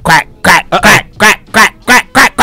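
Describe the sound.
Quacking comes as a rapid run of many loud, nasal, raspy calls. The bursts are of uneven length and spacing, heard alone with no talk.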